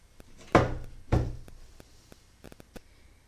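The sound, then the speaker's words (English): A door slams shut and is locked: two heavy, booming thuds land close together, followed by a few light, sharp clicks from the lock. “Slam the door and lock it. As you slam the door and lock it, and you trap yourself in the room”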